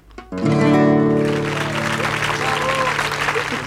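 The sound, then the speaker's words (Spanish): A studio audience at a radio show applauds with dense, steady clapping that swells in quickly and holds at a fairly even level. A few held musical notes fade underneath at the start. “¿Ya están pronto en la fonoplatea? Ya están aplaudiendo.”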